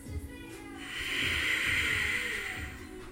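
Ujjayi breathing through sealed lips, a single long, airy hiss that swells in, holds steadily for about two seconds and then fades, over soft low background tones.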